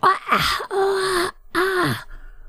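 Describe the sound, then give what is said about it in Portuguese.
A voice imitates a very dangerous monster with a few drawn-out, throaty groans and gasping moans. Short pauses separate the loud bursts. “E agora eu vou se transformar num monstro muito perigoso.”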